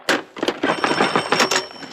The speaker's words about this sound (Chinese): 接电话。